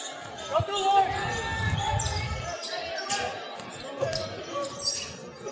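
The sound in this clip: A basketball dribbled on the court during a game, with repeated rubbery bounces under a commentator's continuous talk.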